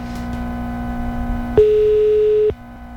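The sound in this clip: A single steady mid-pitched telephone beep during a call, about a second long, rising sharply out of a constant low hum and cutting off abruptly.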